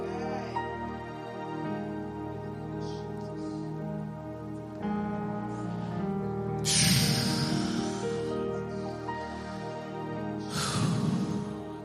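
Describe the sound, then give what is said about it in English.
Breath blown into a microphone makes two rough, gusty bursts over a steady harmonic backdrop, a short one partway through and another near the end. “Yes, just blow into that microphone. I feel the breath of God.”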